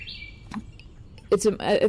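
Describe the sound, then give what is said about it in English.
A bird calls loudly from a tree across a yard, giving a brief high whistled chirp and then a louder cluster of quick calls. “If you can hear it, well, that bird, it's like in a tree across the yard, so loud.”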